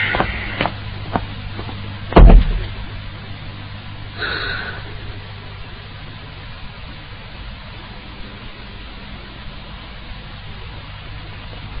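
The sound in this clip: A door being closed during a Henan opera performance, heard as one sharp, loud thud near the start over a steady hiss, followed by a softer knock.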